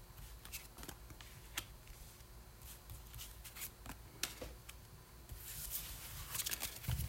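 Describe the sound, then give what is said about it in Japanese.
Faint rustling and soft taps as tarot cards are handled and laid out two by two, with scattered small clicks and a slightly fuller rustle toward the end, no voices. “今ちょっと2枚2枚ずつ用意しますね。”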